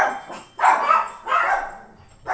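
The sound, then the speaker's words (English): Dogs barking in a few loud, rough bursts spread across the moment, each bark strong and clear with short gaps between them. “Sorry about that, my dogs.”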